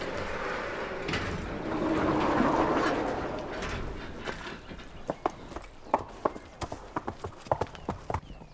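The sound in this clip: Hooves clip-clop as a horse is ridden in a small circle during a riding lesson, the sharp, evenly spaced hoofbeats rising out of a broad rushing background and becoming distinct and regular in the second half.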